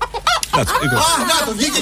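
A chicken clucks in quick succession, giving several short, choppy squawks followed by a run of warbling, rising and falling cackles, fairly loud and without talk.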